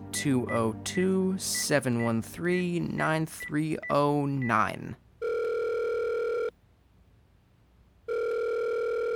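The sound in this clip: A phone call dialed on speakerphone: people talk first, then two long, steady, hum-like ringing tones follow, separated by a silent pause, the second cut off at the end.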